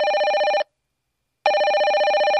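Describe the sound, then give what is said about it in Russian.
A mobile phone ringing: two loud bursts of a bright, trilling electronic ringtone separated by a silent pause, with no voices. “Зазвонил телефон, причем мой.”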